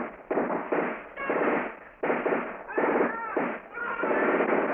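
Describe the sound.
Dense bursts of gunfire from a war film battle against Japanese troops, firing in rapid, continuous clusters with brief dips between volleys and voices mixed in.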